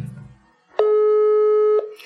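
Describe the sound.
A telephone line tone sounds as a call is placed: one steady electronic tone of constant pitch lasting about a second, preceded by a brief moment of voice.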